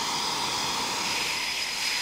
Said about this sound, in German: 10 bis 15 Minuten stehen die Jets jetzt hier noch mit laufenden Triebwerken. Sie warten auf das Zeitfenster zum Start. Der Lärm überschreitet jedes gesunde Maß.